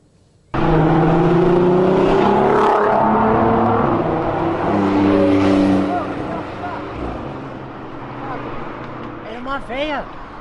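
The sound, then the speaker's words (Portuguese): A Porsche Turbo engine drives and accelerates. Its loud, steady drone starts abruptly, with shifting harmonic tones, then eases to a lower level after about six seconds while voices talk over it. “Era uma velha dirigindo a Porsche. Mentira! Dirigindo a Porsche Turbo”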